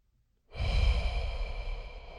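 A deep breath sighs out after a brief silence, a long, airy, breathy exhale that starts strongly and slowly tapers while staying audible to the end.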